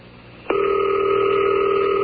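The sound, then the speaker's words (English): A telephone ringback tone on a call line dialing an automated time-and-temperature service in Buffalo. Quiet line hiss gives way after half a second to a steady, loud, unbroken tone that holds at constant pitch to the end. “It's ringing.”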